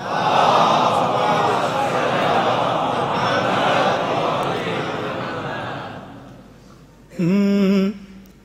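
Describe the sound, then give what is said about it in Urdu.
Crowd voices chant the salawat in unison in answer to a call, forming a dense, sustained roar that slowly fades. A single clear voice briefly follows near the end. “بار دیگر نعرہ صلوات”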